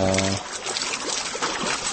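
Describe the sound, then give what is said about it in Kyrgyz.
Water pours continuously from three buckets mounted on a turning water wheel, making a dense, steady splashing and trickling hiss. A brief low hum sits under the splashing at the very start. “Ошол суу жетип турат да, чылдырып. Азыр дөңгөлөктө орнотулган 3 челек 1 минутта 20 литр су сузуп”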